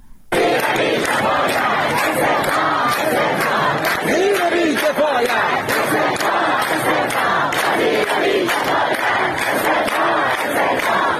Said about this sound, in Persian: این بخشی از صدای معترضان در شهرهای شیراز و سنندج است.